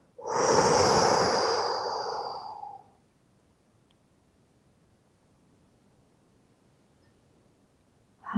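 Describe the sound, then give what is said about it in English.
A deep breath is exhaled while the belly pulls in toward the spine: a loud, breathy rush of air lasting about three seconds that fades out, followed by near silence. “using your stomach muscles, your abs, just as you release the breath, pull your belly button to your spine.”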